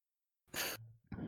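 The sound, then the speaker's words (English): A quick throat clearing, a harsh breathy burst followed by a brief rougher rasp, fairly loud and alone with no talking. “let me clear my throat really quick.”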